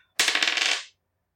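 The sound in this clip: A die rolled during a tabletop role-playing game gives a quick, bright clatter of many rapid clicks lasting under a second, then stops dead into silence.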